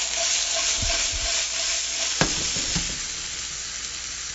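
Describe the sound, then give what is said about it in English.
Fat sizzles as it hits a hot pan over high heat, with more ingredients already cooking in it. A dense, steady frying hiss fills the whole stretch, with a few soft low knocks near the start and middle. No one speaks. “So I'm putting some fat. You can hear that's the fat hitting the pan.”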